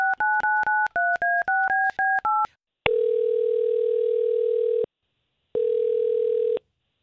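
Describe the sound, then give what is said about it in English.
A telephone call being dialed: a quick run of keypad tones whose paired notes shift in pitch, followed by two long, steady ringing tones separated by a pause. No voices are heard. “We're going to try to get him on the line”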